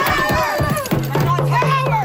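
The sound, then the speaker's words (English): Protesters shout at the Nova Scotia premier as they swarm his car, a loud mass of overlapping, strained voices with rapid bursts of yelling and no pause. “Protesters shouting at Nova Scotia Premier Tim Houston as they swarm his car, climbing on top of it, standing in front of it, and smashing the windshield.”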